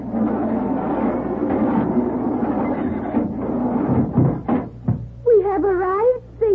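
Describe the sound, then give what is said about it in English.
An old gate is worked open with a few rattles and knocks of loose metal over a low rumbling background. “Now, if this gate hangs together long enough for me to open it...”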